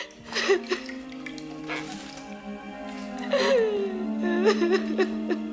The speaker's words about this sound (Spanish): Rompe a llorar y apoya la cara en el brazo.